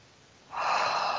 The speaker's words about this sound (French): prendre trois grandes respirations en imaginant que sur votre expire, en fait, vous expulsez tout ce qui n'est pas utile à votre vie